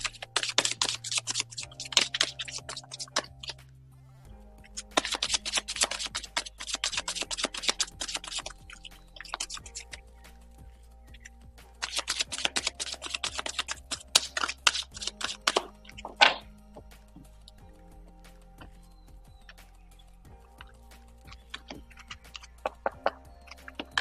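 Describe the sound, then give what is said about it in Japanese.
Oracle cards are shuffled and drawn one at a time, with bursts of rapid, crisp riffling and flicking clicks separated by quieter gaps, all fairly faint. “個別にオラクルカード1枚引きしていきます。お待ちください。”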